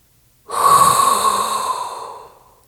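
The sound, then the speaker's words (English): A deep, hot breath drawn in through the mouth: one long, loud, airy inhale lasting about two seconds that rises sharply, holds steady, then gradually fades. “inhale a hot breath”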